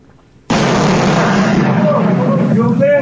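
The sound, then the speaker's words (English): A boulder crashes through a house, caught on a security camera: a sudden loud boom after a brief quiet moment, then a heavy, sustained rumbling roar that lasts to the end. “I've got a bit of audio here for you. It's like you'll hear the boulder crashing and stuff.”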